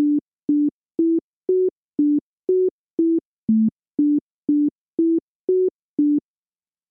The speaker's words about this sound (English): You know what it is. Yeah, indeed, it's Yankee Doodle.